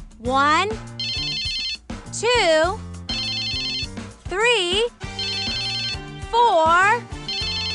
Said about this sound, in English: This is my phone. My mom's calling me all pissed off for using her credit card.